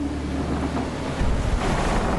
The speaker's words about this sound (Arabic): الرياح والأمواج تتحكمان بالسفينة كأنها ريشة طائر.